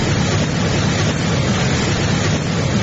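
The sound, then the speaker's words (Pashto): Muddy floodwater waves surge through Khas Uruzgan district in Uruzgan province, making a continuous loud, dense roar of rushing water with buffeting wind-like noise and no break or voices. “د اروزګان ولایت د خاص اروزګان پر ولسوالۍ د سیلاب د خړو اوبو بې رحمه څپې”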